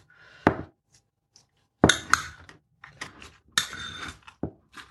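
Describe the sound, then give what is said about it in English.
A spoon clinks and scrapes against a bowl while mixing mayonnaise with mustard and dried chives, making a series of irregular taps and short scrapes with quiet gaps between them. “So I've got mustard and I've got some dried chives in there as well. And then I'm just going to give them a good mix with the spoon.”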